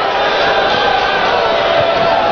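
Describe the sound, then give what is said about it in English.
A baseball stadium crowd reacts to a letter-high called strike on a full count, a loud, sustained roar of many voices that stays steady throughout. “And the crowd lets him know.”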